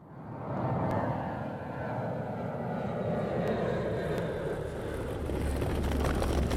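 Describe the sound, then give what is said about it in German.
Steady, broad engine roar from aircraft at Zurich-Kloten airport, holding a low rumbling level throughout with a few faint clicks and no voices. “Mein Ausflug führt mich nach Zürich-Kloten zum Flughafen.”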